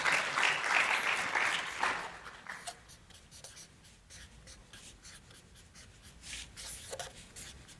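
A pen or marker scratches as someone hand-draws a presentation slide. Many short, scratchy strokes come in an irregular rhythm after a louder, denser rushing passage at the start.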